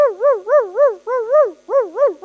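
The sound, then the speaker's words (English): Rapid yelping barks of a short-legged dog at a fence, aimed at a cat perched on top. The loud, wavering, high-pitched yaps come in three quick bursts with short gaps between them. “And so my dog will come up to the fence, and I'll hear,”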